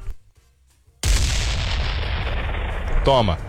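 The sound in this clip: A bomb explosion sound effect: after a second of near silence, one sudden, loud blast booms out, and its rumbling roar fades slowly over about two seconds. A short voice sounds near the end.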